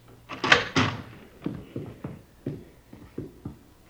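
A dining-room door is opened in a house, giving a run of many dull wooden knocks and clunks. A couple of louder rattling bangs come early, then softer, evenly spaced thumps follow.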